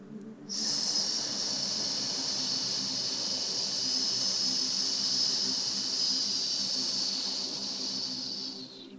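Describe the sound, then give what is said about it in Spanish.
A strong exhale through the mouth during a guided breathing meditation: a loud, breathy hiss held steadily for about eight seconds, then tapering off at the end, with no talking. “Y por la boca fuerte vas a exhalar.”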